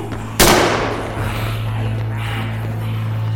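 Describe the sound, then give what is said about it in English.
A single sharp shotgun blast cracks out over a steady low hum, its loud, broad report decaying into a sustained noisy tail. “Red, less talking, more using that shotgun.”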